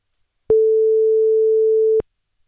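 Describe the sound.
A single ringback tone on an outgoing telephone call, one steady mid-pitched beep lasting about a second and a half, alone between stretches of silence.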